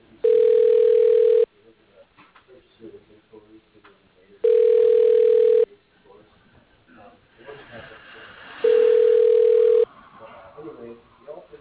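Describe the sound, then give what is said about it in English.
Telephone ringback tone while a call to a company connects: three long, steady beeps spaced a few seconds apart, with people talking quietly between them. “Calling Creative Products.”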